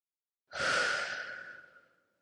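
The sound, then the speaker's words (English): A single deep breath, taken with eyes closed: a breathy rush of air that starts abruptly, then softens and fades away over about one and a half seconds. It is heard alone, with no talk. “So if we all want to close our eyes and take a deep breath.”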